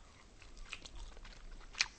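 Faint biting and chewing on charcoal-grilled clams threaded on skewers and brushed with a soy-based glaze, with a few soft crunches and one sharper crunch near the end.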